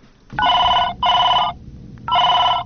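Electronic telephone ringing as a call comes in to a radio call-in program: three loud bursts of a steady, bright ring, the last cut off at the end, with no voices.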